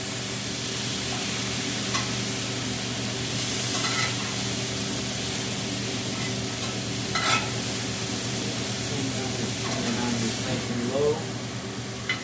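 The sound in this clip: Food frying in a pan is stirred, giving a steady, loud sizzle throughout with a few brief scraping accents along the way.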